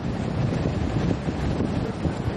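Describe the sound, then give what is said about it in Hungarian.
Wind from twin funnel-shaped tornadoes striking Nebraska, caught in amateur footage as a continuous low, rough roar with buffeting gusts on the microphone and no voices. “Ezen az amatőr felvételen az látszik, amikor a tölcsérformájú ikertornádók hirtelen lecsapnak az amerikai Nebraska államra.”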